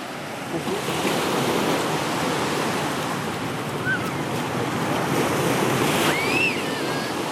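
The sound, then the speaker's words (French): Sea waves roll and wash in a continuous loud roar, mixed with steady gusting wind noise and no clear breaks between surges. “J'ai peur, ça me fait peur, la mer. Ça me fait peur, la mer.”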